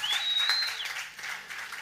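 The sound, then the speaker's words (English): Audience applause at a live music show of original songs, dense and steady clapping with a shrill whistle rising at the start, the cheering easing slightly toward the end. “So if everyone give Rob a big round of applause.”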